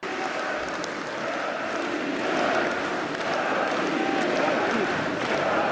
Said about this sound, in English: Quite hear what that is. It's all muddled, Jim. Can we hear what they're chanting? Jim, turn up the audience mics.